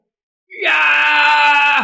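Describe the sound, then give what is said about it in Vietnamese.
A man howling in rage with his face turned to the sky: after a moment of silence, one strained, sustained cry bursts in with a quick upward onset, then holds loud and steady before cutting off. “Tại sao? Gã ngửa mặt lên trời gào trống, thần huyết càng tuôn chảy nhanh hơn”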